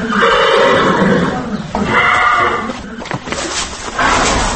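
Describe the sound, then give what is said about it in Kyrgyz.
A ten-year-old pacer horse gives a loud, drawn-out neigh, a rich whinny that wavers and then breaks into shorter, rougher bursts toward the end. “Орто Азия боюнча алдына бир да жоргону чыгарбаган айтылуу патрон жоргосунун үнү. Жашы 10, жетасы.”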